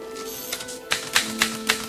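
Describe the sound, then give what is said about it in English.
A typewriter types names onto a list, four sharp keystrokes at an even rhythm over a faint steady hum. “Stern's typewriter registers the names Bau and Nova.”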